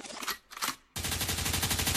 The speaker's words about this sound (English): Gunshot means forward, you requested it, so we rewind.